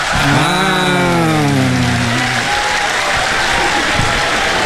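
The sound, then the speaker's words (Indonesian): A group claps after a local-dialect vocabulary lesson, a loud, dense, continuous wash of hands that stays at a steady level throughout. “Tepuk sikit.”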